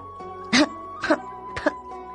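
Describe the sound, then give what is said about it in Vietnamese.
An elderly woman gives three short, dry coughs spaced about half a second apart. Each is a brief, harsh burst over a quiet background. “có tiếng ho khan của Lâm Thị”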